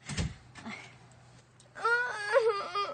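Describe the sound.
A baby girl cries in a staged Turkish drama scene: a short whimpering start, then a loud, wavering, high-pitched wail that swells and breaks near the end.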